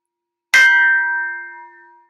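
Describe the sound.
A Tibetan bell is struck once, giving a bright metallic ring with clear sustained tones that fade slowly over about a second and a half, heard alone.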